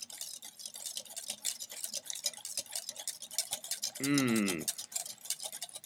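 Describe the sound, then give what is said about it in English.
Whisking three cups of milk in a bowl: a fast, steady stream of faint, scratchy wire strokes that continues evenly from start to end. “get your whisk, and you're just going to whisk for about 2 minutes. A nice fun sound of hearing a whisk.”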